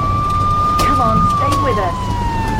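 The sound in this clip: A police car siren gives a steady, high wail that dips slowly in pitch, used in a road-safety warning about speeding, while a voice speaks urgently over it.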